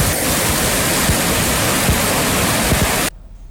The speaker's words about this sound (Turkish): Ankara'da da şiddetli yağmur caddeleri su altında, sokakları su altında bıraktı.